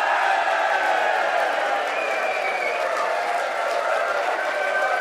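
A rowdy live audience cheers and applauds at a TradFest traditional music show in the Conference Centre in Dublin, with dense, continuous clapping and crowd noise at a steady level.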